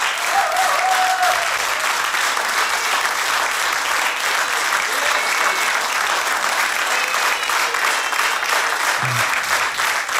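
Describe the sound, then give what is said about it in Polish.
Audience applause after a live concert performance, a dense, steady wash of clapping that holds at an even loud level throughout with no voices rising above it. “wielkie brawa jeszcze raz.”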